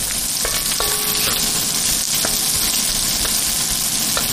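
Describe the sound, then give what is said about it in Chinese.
Loud, steady sizzling of a hot wok as porcini mushrooms are stir-fried in lard with chopped cured pork, dried chilies, green Sichuan peppercorns and plenty of garlic, a dense crackle that runs unbroken throughout. “剁碎的腊肉、干辣椒和青花椒，热锅煸炒，再倒入牛肝菌，放入大量的蒜”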